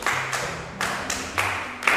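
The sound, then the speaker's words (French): Classroom applause from pupils, a few loud sharp claps in a loose, uneven rhythm, brief and fairly bright. “Très bien, applaudissez.”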